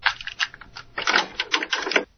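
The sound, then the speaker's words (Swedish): Plastic clicks and clatter as a cassette is pushed into a cassette deck in a radio studio. A rapid run of many sharp mechanical clicks lasts about two seconds, then falls silent. “Här tror jag vi har ett kassettdäck som vi kan försöka använda, ska vi se. Då kan jag stoppa in kassetten här.”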